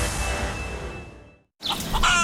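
Chickens cluck in a steady, busy stream, then fall briefly silent before a louder burst of clucking and cackling returns.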